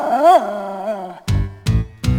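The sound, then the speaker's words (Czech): Newfoundland dog gives a drawn-out whining yelp, then three deep, sharp barks in quick succession, loud and alone. “Velký svátek má dnes náš novofundlandský pes.”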